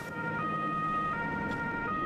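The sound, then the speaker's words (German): An ambulance siren sounds as an airport's own rescue-service ambulance drives off carrying a patient to hospital, a steady, high wailing tone held over a constant low rumble of engine and road noise. “Der Flughafen hat einen eigenen Rettungsdienst mit Notfallsanitätern. Und 10 Rettungswagen. 24 Stunden einsatzklar. Im Schichtbetrieb. Sie fahren die Frau ins Klinikum Höchst.”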